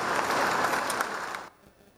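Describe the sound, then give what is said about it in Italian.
Moved audience applause in a hall at an Italian space agency gathering, paying tribute to a figure of lunar exploration programs; steady clapping that fades and then cuts off abruptly, leaving near silence. “Per lui, che tanto si è speso in questi anni per i programmi di esplorazione lunare, un commosso applauso.”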